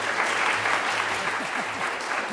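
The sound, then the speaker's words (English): Audience applause welcomes a lecturer at an evolution lecture, a steady, dense patter of many hands clapping that holds an even loudness throughout. “So I wish you'd all join me in welcoming Dr. Eugenie Scott for her second lecture, and certainly we're very lucky to have her here.”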